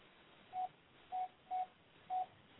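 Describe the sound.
A telephone sounds in the background as four short electronic beeps at a steady mid pitch, faint and unevenly spaced, with no talk over them.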